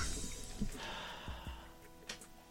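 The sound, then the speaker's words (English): A person inhaling while turned away from the microphone, giving a soft, airy intake of breath that is faint and followed by a few small clicks. “I move away from the mic to breathe in.”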